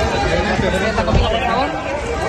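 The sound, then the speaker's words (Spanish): Crowd booing and jeering as the president of Madrid arrives at the Feria de San Marcos in Aguascalientes, a dense, steady mass of many voices that runs through the whole moment without a break. “La presidenta ha llegado entre abucheos.”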